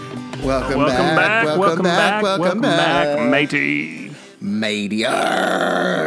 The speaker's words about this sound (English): That's just you groaning now. Yeah. Oh, those onion rings went down the wrong way.